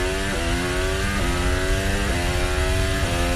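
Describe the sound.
High, buzzing engine whine of a Formula 1 car as it drives into the tunnel at the Monaco Grand Prix. The engine is loud and continuous, and its pitch climbs steadily, broken by four quick dips as the car shifts up through the gears.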